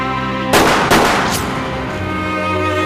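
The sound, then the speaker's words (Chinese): Gunshots from a gun aimed and fired at a target: a couple of sharp, loud cracks close together, each followed by a rumbling decay. “来，握住了啊，来，瞄准，好，开枪，打中了。”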